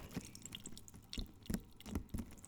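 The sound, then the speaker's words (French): Water dripping: a few soft, irregular drops with a light liquid plink, quiet and heard alone. “Il y a de l'eau.”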